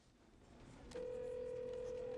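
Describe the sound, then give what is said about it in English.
A mobile phone places a call. After a quiet, muffled opening, a steady electronic line tone comes in abruptly and holds at an even level to the end. “He looks down at his mobile phone on the desk, then picks it up and makes a call.”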